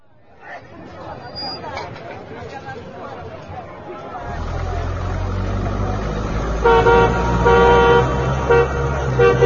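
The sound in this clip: A car arrives, its engine rumble rising in partway through and holding steady, with horn toots sounding over it toward the end as a crowd chatters throughout.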